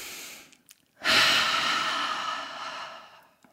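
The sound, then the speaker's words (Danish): A single person draws one deep, slow breath in, a breathy rush lasting about two seconds that fades gradually, with no talk. “kunne jeg godt lige tænke mig, at vi sammen måske lige sådan træk vejret dybt sammen, så vi lige kan tage sådan en dyb indånding.”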